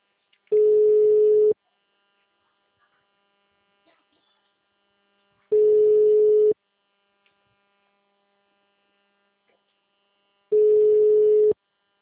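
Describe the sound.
Telephone ringback tone heard while a call is being placed, three steady mid-pitched beeps of about a second each, evenly spaced with long silent gaps between them, with no voices.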